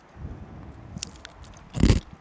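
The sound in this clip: A crisp fortune cookie cracks open with a few small snaps, then a louder, crunchy break near the end over faint background rustle.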